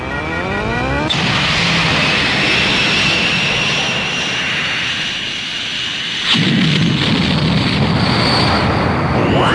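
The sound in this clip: Spaceship taking off with a loud, sustained engine roar that shifts to a heavier, rumbling blast partway through, with no voices.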